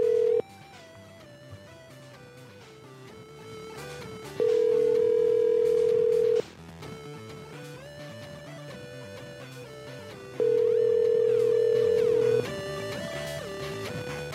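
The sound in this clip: Telephone ringback tone on an outgoing call: two long, steady mid-pitched tones about six seconds apart over continuous background music.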